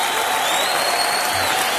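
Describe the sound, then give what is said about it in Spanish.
Applause from a church audience honoring Jesus, a dense, steady wash of many hands clapping at even loudness throughout, with no distinct voices over it. “Dale fuerte el aplauso a Jesús.”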